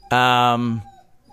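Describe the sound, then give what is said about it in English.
A female dog cries with a single drawn-out, tonal whine lasting under a second, fairly loud and heard alone. “I don't know if you can hear my dog crying, but boy, she's annoying.”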